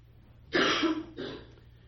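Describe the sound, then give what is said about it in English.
Throat clearing from a speaker whose voice is strained, two rough bursts, a longer one followed by a shorter one, heard alone against quiet background hiss. “I hope you'll pardon me for my clearing out my voice box here every once in a while.”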